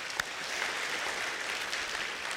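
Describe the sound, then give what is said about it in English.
Applause from a church audience after a choir and orchestra performance, a steady dense wash of clapping with no pauses, moderately loud and carrying on alone for the whole stretch. “Let's give Ted a round of applause.”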